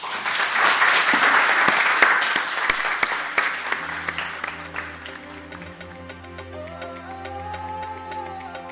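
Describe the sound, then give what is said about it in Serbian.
Audience applause at the close of a live poetry evening, dense clapping that peaks early and thins to scattered claps, then fades under a faint sustained musical tone. “Za kraj radijskog prenosa večeri Vladimira Kopicla, molim vas samo za jedan aplauz.”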